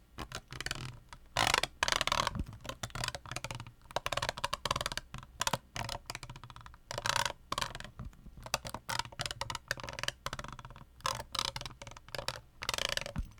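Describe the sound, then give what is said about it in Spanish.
A brush scrubs a bottle in many quick, scratchy strokes that come in irregular bursts with short pauses between them, with no other sound. “Cepillando la botella.”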